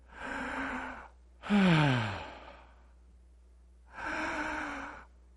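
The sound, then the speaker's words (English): Three deep, slow breaths, each lasting about a second with a pause between. The middle one is a voiced sigh whose pitch falls. All are heard alone with no talk. “lower your heart rate by taking 5 deep breaths.”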